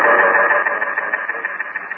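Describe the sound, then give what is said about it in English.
A pump running in a pitch-black basement room at the bottom of a flight of stairs, a steady droning mechanical hum with a faint pulsing flutter that continues throughout, with no voices. “There was some kind of pump.”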